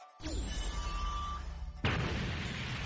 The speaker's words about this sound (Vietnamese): Tiếng nổ mạnh vang lên kinh thiên